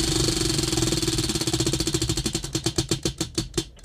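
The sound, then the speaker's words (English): A prize wheel spins with a continuous clatter of rapid ticks that gradually slow and spread apart into distinct clicks as it winds down toward a stop. “I've got the microphone next to the wheel, and we will spin.”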